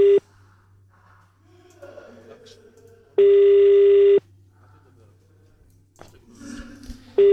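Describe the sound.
Telephone tone after a call is cut off during a phone-in, a loud steady single-pitch beep lasting about a second, with the clipped edges of further beeps at start and end and quieter talk in the gaps.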